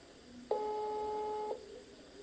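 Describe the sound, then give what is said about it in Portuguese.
A faint, steady telephone tone sounds once for about a second after a dropped call. It holds a flat pitch and then cuts off, leaving quiet line noise. “Bom, estava refazendo a pergunta e a ligação caiu, eu vou tentar novamente.”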